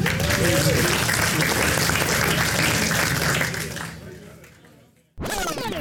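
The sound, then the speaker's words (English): Crowd applauding at the 2019 Kondari Barbecue Festival: loud, dense clapping holds steady, then thins and fades away before a voice starts speaking. “Can everyone put their hands together for all these great guys that make all this happen?”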